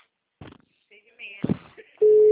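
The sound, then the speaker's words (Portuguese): An unanswered telephone call gives a loud, steady, single-pitched tone that sets in near the end, after a few faint, brief sounds. “Ai, ele não atende mais. Tô ligando pra ele agora.”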